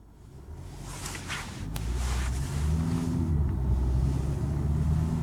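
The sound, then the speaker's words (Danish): A car drives along a main road in rural Denmark, a steady low engine and tyre rumble with wind noise that grows louder after the first couple of seconds and then holds even. “Jeg kører lige nu på hovedvejen i øh, retningen væk fra Djurs Sommerland mod den lille by Avning, som ligger i Norddjurs Kommune”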